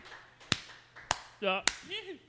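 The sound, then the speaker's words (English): A few sparse, isolated claps on a live radio show, evenly spaced sharp slaps with gaps between them. Brief voice sounds fall in between them. “How about a smattering of applause? Just a smattering. It's a smattering.”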